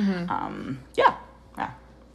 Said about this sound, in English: I'm very sorry if the dog noises were distracting. I know we've got a puppy ringing a bell.